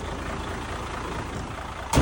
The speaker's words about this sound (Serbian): Ali taj zvuk od V6 motora